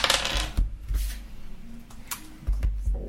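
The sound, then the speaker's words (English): Damage dice clattering onto a table during a tabletop role-playing game, with a few sharp clicks and rattles in short bursts separated by brief pauses, fairly quiet overall. “Roll my damage dice.”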